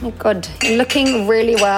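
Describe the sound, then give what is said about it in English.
Dishes and cutlery clink and clatter as they are loaded into a dishwasher, heard under a person speaking. “And yes, that is the sound of me filling my dishwasher as I speak to you”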